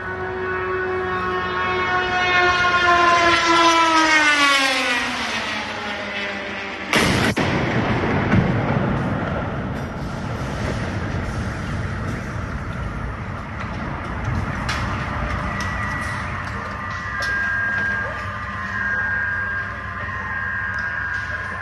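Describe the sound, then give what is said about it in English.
A night missile attack on Kyiv, with strikes landing near the Pechersk Lavra monastery complex: a rising, siren-like wail climbs over several seconds, then a sudden loud blast erupts, followed by a long rumbling wash and a steady high tone later on. “there's audio from that night of the attacks falling about 500 meters from my apartment in Kyiv to destroy parts of the Pechenska Lavra, which is the sort of religious center of Ukraine.”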